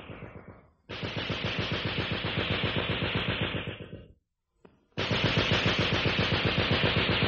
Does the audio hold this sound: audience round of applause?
no

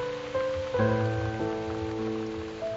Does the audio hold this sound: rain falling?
yes

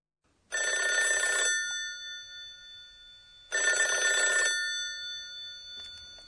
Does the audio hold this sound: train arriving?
no

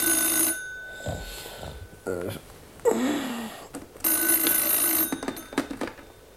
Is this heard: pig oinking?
no

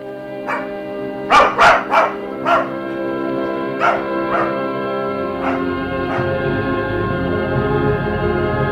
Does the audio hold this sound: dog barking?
yes

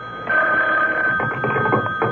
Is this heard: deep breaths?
no

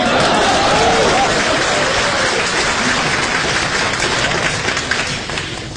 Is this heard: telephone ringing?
no

